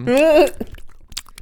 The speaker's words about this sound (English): if you like the sound of me chomping down on Manson snacks, yum, and you want to hear more of that chewing